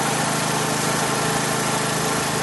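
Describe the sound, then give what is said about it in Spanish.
A portable generator engine runs at a steady, loud, buzzing drone with a constant low throb and no change in pitch. “tira de la cuerda de arranque del generador.”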